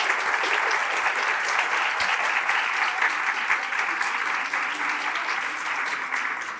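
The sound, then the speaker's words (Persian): An audience applauds for Imam Javad at a religious gathering, with continuous, even clapping from many hands that fades slightly near the end. “برای امام جواد میخواین دست بزنین؟ بله بزنید برای امام جواد.”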